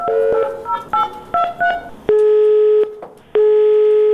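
Tone dialing while calling an army hotline: a quick run of short touch-tone beeps, then two long, steady, loud busy-signal tones separated by a brief gap.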